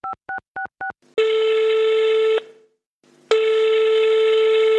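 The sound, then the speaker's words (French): Four short dual-tone keypad beeps as a telephone number is dialed, then two long, steady ringing tones with a short pause between them, loud and alone. “elle trouve le numéro, elle appelle.”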